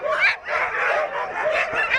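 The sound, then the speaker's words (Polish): Sled dogs waiting at a sled-dog racing event howl and yip together in a loud, high, wavering chorus that runs on without breaks. “Obserwowaliśmy te psy wczoraj już też. Były bardziej spragnione, bo przed wyjściem w trasę bardzo mocno szczekały, bardzo chciały ruszać w trasę. Dzisiaj są trochę spokojniejsze, ale pięknie wyją, pięknie szczekają.”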